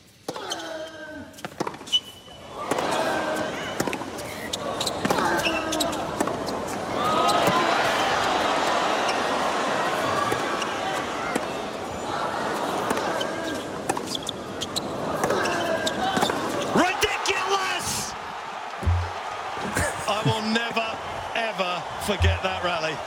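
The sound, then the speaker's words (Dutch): A long tennis rally between Federer and Nadal at Melbourne in 2017 brings many sharp, regular ball strikes, with voices talking over them throughout. “En daar mag een wedstrijd tegen zijn grote rivaal Rafael Nadal, die je niet hoort slaan, niet ontbreken. En dit is Melbourne 2017. Dit is die hele lange rally, 26 slaag.”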